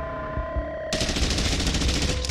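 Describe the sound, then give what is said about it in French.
Sustained automatic gunfire as soldiers in trenches open fire on a creature, a dense, loud, rapid crackle that bursts in abruptly after a low droning hum and runs continuously to the end. “Ils ouvrent le feu”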